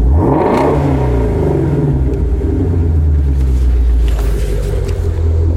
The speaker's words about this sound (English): That is the sound of a 5.2 liter flat plane crank, 526 horsepower V8 in the Ford Mustang Shelby